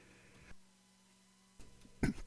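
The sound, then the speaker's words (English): A single brief human sneeze, a sharp loud burst near the end of an otherwise quiet stretch with only a faint low hum beneath it. “Excuse me. Had a sneeze there.”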